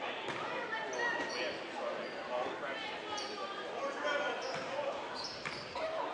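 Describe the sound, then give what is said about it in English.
A basketball dribbled on the court during a girls' high school game, repeated bounces that sit low in a wash of crowd noise and commentary. “Dribbles right. She pounds the basketball when she starts moving.”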